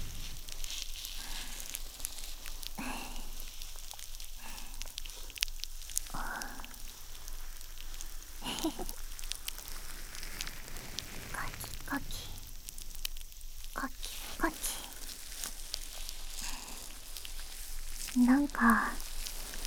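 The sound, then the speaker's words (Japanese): Faint fizzing crackle of foam bubbles popping on the head during hair washing. A continuous sizzle-like texture carries scattered small pops, and brief voice sounds rise near the end. “頭の上で泡が弾ける感じ、どうです？”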